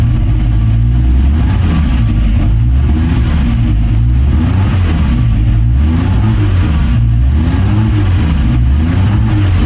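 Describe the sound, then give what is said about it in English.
An AC Bristol sports car's engine revs loudly and continuously, its pitch repeatedly swelling and easing in a rhythmic rise-and-fall pattern, with no talk over it. “He rented to me, here's a picture, March 64, an AC Bristol.”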